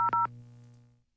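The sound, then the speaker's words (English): A telephone number is dialed: two short dual-pitched keypad tones in quick succession over a low humming line tone that fades out after about a second. “Let's give her a call here this morning.”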